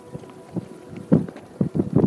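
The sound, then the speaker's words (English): Gusty outdoor wind buffets the microphone near flagpoles in Daybreak, Utah, coming as several low rumbling bursts that grow stronger and closer together toward the end, with no talk. “And the wind's really blowing. You guys hear that?”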